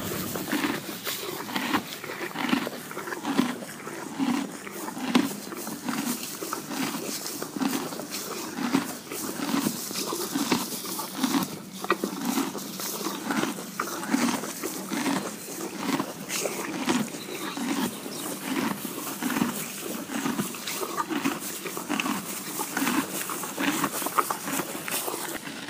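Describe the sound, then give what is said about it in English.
A horse eating hay: steady, rhythmic crunching chews repeat many times over soft rustling. The munching is moderately quiet and continuous, with no voices. “The sound you just heard is the sound of Lulu the horse eating hay.”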